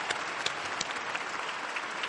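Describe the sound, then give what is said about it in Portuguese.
Applause for the grandparents fills the moment, a dense, steady patter of many hands clapping at an even level from start to finish. “É um aplauso ai nonni!”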